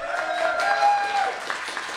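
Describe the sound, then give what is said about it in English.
Audience applause greeting a guest on a morning show, a brief, steady wash of clapping with some tonal sound running underneath. “How about a round of applause for her?”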